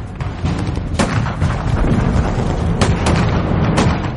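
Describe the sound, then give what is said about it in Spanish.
Gunfire and explosions as troops at a small American outpost in Lanzerath open fire in battle: a dense, continuous roar of combat noise broken by a few sharp cracking shots, loud throughout. “El reducido cuartel americano en Lanzerath estaba en desventaja, pero abrió fuego contra las tropas enemigas.”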